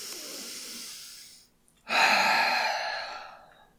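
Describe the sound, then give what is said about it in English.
A person takes a deep breath: a long, airy rush of air, a brief pause, then a louder, breathy rush that slowly fades. “Deep breath.”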